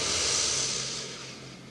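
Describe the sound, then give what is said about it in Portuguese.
A single deep inhale through the nose during a guided morning breathing exercise: a long, airy hiss that is strongest at the start and slowly thins out, with no talking over it. “Um respiro profundo para a gente sintonizar. Inspira pelo nariz.”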